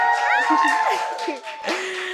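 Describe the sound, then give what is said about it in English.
An all-female audience cheers and whoops, with shrill rising whoops and scattered shouts over a bed of crowd noise that swells again near the end. “We have an all female audience. Y'all make some noise.”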